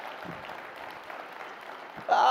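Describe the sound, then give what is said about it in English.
Applause from a church audience for the youth pastor, a steady dense wash of clapping that holds evenly throughout, with a voice breaking in near the end. “Can we just give a hand to Pastor Austin? He's amazing.”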